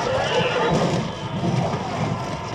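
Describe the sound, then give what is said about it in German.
Horses neighing and whinnying in panic after being struck by arrows during a battle, some shying and rearing; loud, rough, continuous cries over a dense, noisy background with possible hoof clatter. “Getroffene Pferde scheuen, werfen sich panisch herum oder steigen auf die Hinterhand.”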